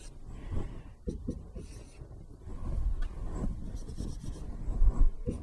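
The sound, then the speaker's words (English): Writing on a board during a math lecture on marginal cost: scratchy strokes in short bursts of varying loudness, with no voices. “I'm just writing the linear term first now and then the constant overhead after.”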